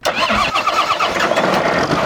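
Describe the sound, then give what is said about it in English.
A tractor engine on a spinach farm in eastern Oklahoma cranks and catches, then runs on in a loud, steady, rumbling idle that lasts to the end. “A farmhand fires up a tractor to begin planting spinach at Conrad Farms just outside of Gore in eastern Oklahoma.”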